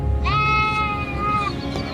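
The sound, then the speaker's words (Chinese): A single sheep bleats on a farm where the flock grazes open fields by day and shelters in woodland at night. The bleat is loud, drawn out and wavering, held for over a second above a low background rumble. “平时这里羊就是生活在这里，晚上就生活在林地里面。”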